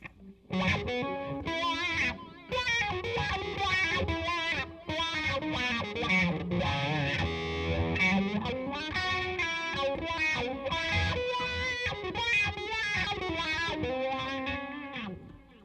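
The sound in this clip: Distorted electric guitar played through a wah pedal, the second pedal in a comparison, riffing continuously with a sweeping, vocal-like tone filter over about fifteen seconds of steady, loud playing, no voices.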